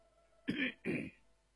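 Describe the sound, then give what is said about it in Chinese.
A man coughing: two short, throaty bursts close together, fairly quiet and heard alone. “张廷玉正自紧张的思索，允祥在一旁咳嗽一声”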